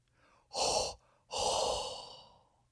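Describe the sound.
Heavy breathing straight into a microphone: two long, loud, breathy exhalations, the second drawn out longer than the first, separated by a short pause, with no talk.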